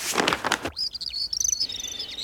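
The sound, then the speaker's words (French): Many birds chirp from a big tree, with high, quick, overlapping calls and trills following a short burst of rustling noise at the start. “C'est la page des oiseaux.”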